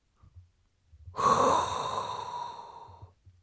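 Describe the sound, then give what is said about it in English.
A person draws in one deep breath, an airy, rushing inhale that starts sharply, stays strong for a moment and then tapers off over about two seconds, with soft low rustles before and after. “there is only one thing left to do. And that is inhale a hot breath”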